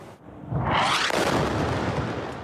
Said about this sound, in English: Israeli airstrikes are bringing further destruction across the Gaza Strip, with dramatic footage capturing the moments homes and buildings are hit in another wave of attacks on the Palestinian enclave.